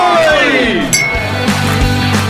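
Glasses clink in a toast over drinks of Imperial Blue whisky mixed with water, soda or orange juice on ice: one bright, short clink rings out over a loud, sustained tonal background.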